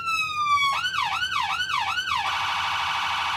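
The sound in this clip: An emergency vehicle's siren system runs through all its signals from the sound box in front of the hood. A steady rising tone gives way to four quick swooping wails, then a rapid, buzzing warble that holds to the end.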